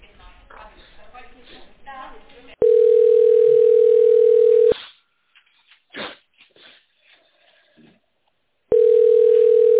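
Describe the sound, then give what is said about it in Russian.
Steady telephone line tone plays while a call is being transferred: two long, even, mid-pitched tones, the first after a stretch of talk and the second after a gap with faint sounds. “Перевожу вас звонок, пожалуйста, не отключайтесь.”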